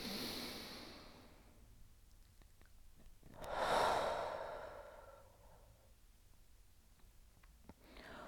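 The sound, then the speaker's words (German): A slow, deep exhale through the mouth in a calming breathing exercise for anxiety: a long soft breathy whoosh swells and fades midway, with quieter breaths before and after. “atme ich durch den Mund aus. Ich lasse die Angst durch den Mund entweichen.”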